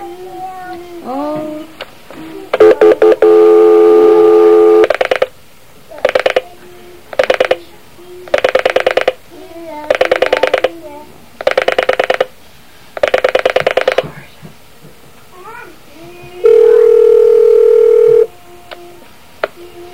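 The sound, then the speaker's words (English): A telephone number is dialed: a steady tone, then a series of short electronic tone bursts at irregular intervals, and finally another sustained steady tone. “You can dial that number.”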